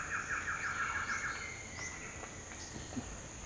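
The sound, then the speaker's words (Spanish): Male Black-headed Antshrike (Thamnophilus nigriceps) answering playback with a fast series of repeated notes, moderately faint, over a steady high insect drone with a few other scattered bird calls. “Es un macho tandofilus negriceps. Confirmó. Responde a playback.”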